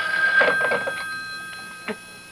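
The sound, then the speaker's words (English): A telephone ringing gives off a steady, high-pitched electronic tone that holds through the whole clip at moderate loudness, with a few short broken bursts laid over it. “Shall I get it for you? No, I'll get it. At least I'm safe on the phone.”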